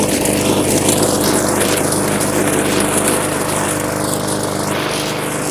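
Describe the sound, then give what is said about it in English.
The steady, loud engine drone of a push lawn mower cutting a yard on bumpy, uneven ground, a continuous rough roar with no pauses and no talking. “It's a bumpy ride with the push mower.”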